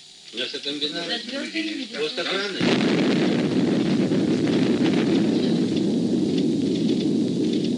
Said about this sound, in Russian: Спокойно, товарищи. Это дошел звук взрыва.